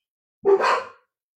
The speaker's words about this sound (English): Sorry about the dogs.